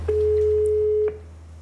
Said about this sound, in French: Si vous voulez entendre ma grand-mère, je peux l'appeler.